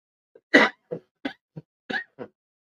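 A man coughing after a small fly caught in his throat: a quick, uneven series of short, sharp coughs with throat clearing, the first faint and the next one loudest.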